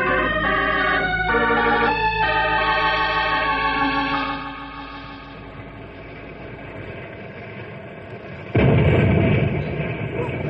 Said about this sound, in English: Full of dynamite. It shook the earth like jelly.